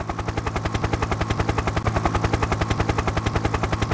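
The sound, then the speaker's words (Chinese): A helicopter flies overhead during a rescue, its rotor thudding in a steady stream of many rapid, evenly spaced beats that stay loud throughout, with no voices. “突然间天空上面飞过嚟一架直升机”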